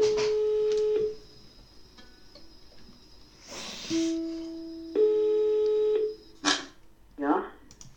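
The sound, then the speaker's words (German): Electronic tones of a telephone call being dialled: a steady beep at the start, then two longer tones back to back after a pause, with short bursts of voice between and after them. “Anruf starten. Ich rufe jetzt trotzdem an.”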